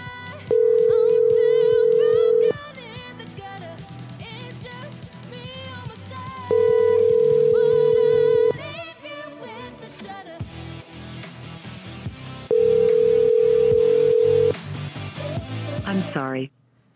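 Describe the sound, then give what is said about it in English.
Phone line tones from a call that reaches a voicemail not yet set up: three long, steady, evenly spaced tones of about two seconds each, sounding over a busy background of other sound. “That's a voicemail that has not been set up yet.”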